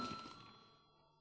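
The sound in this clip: A chairman's bell in a parliament session, rung to call a vote: one faint, clear ring that fades away steadily within about a second.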